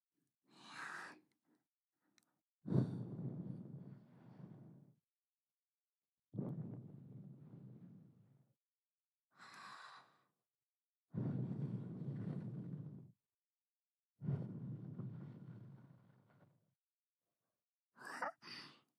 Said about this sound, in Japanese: お耳に息を吹きかけるの？うん、やってみる。